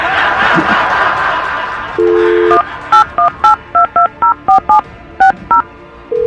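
Touch-tone telephone dialing: a steady tone, then a quick, evenly paced run of short, sharp dual-tone beeps as a phone number is entered, following a noisy, muffled stretch at the start.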